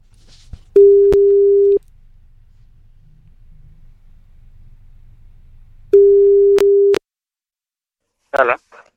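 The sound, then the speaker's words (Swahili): Ringback tone heard while calling someone's telephone: two long, steady, mid-pitched beeps, each about a second long and roughly five seconds apart, with quiet line hiss in between. “Kwanza tumpigie braza. Shika simu braza pale tujue mambo yako. Shika simu. Simu yake inaitana.”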